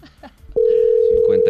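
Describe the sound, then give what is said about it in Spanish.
A steady, mid-pitched telephone line tone sounds on an international call, cutting in abruptly after brief talk and holding unbroken while voices speak over it. “Espera, timbrémosle otra vez a ver si contesta.”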